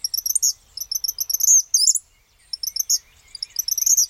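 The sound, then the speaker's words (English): Eastern kingbird calling: many short, shrill, high chirps in rapid chattering bursts separated by brief pauses, heard alone with no other sounds. “In comparison, eastern kingbirds sound more shrill, increasing in volume rather than decreasing as they continue.”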